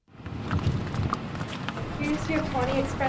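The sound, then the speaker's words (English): Horse hooves clip-clop as a chocolate brown mare is ridden up to the front door of a software business, the irregular hoof beats mixed into a steady bed of noise and talk. “rides a chocolate brown mare to the front door of a computer software business.”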